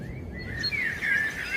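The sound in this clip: A great tit calls during nesting season, giving thin, high chirps and a wavering whistled phrase over soft low background noise.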